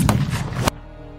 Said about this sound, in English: As he did, he aimed just above Burr and pulled the trigger.